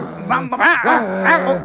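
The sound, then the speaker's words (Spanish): A small dog barks and growls angrily in a few loud, wavering snarling bursts that rise and fall in pitch, with no talk over them. “Mira, el perrito está muy, muy, muy, muy rabioso.”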